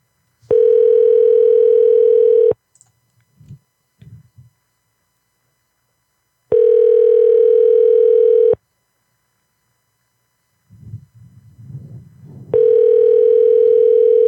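Telephone ringback tone plays on an unanswered call before it goes to voicemail: three steady, even two-second tones separated by silent gaps, with faint low rustling between them.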